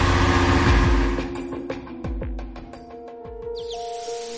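A car accelerating away, a loud engine roar at first that quickly falls off, followed by scattered clicks and rattles and a hiss near the end.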